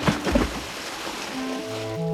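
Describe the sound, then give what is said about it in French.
A child dives into lake water during a swimming lesson, making a brief burst of splashing at the start, followed by a steady low tonal hum. “Les genoux comme ceci. Tu respires bien, décontracté. Bien plié ici, hein, comme moi. Et hop, tu plonges.”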